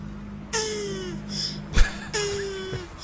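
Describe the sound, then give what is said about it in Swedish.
Mating tortoises give two drawn-out, slightly falling moans, each lasting over half a second, with a pause between them. A brief thump falls in the gap. “Det skulle antingen vara det här ljudklippet på de här köldpaddorna som parar sig.”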